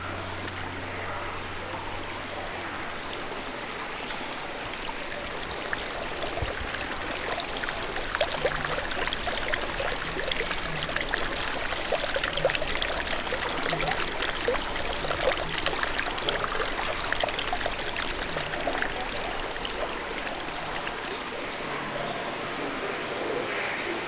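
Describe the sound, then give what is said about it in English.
Water flows in a steady, continuous rush, an even wash of noise that holds at the same level for the whole stretch with no pauses and no clear voices. “And now the water is coming.”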